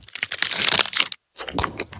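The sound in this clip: Crunching of a mint Aero chocolate bar with its aerated bubbles: dense, crackly crinkling in two bursts separated by a brief silence, crisp and close throughout.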